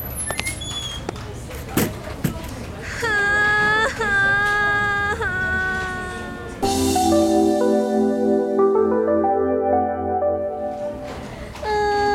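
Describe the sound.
A woman cries and sobs, her voice high and strained in long, wavering wails broken by shorter whimpers. The crying is loud and sustained.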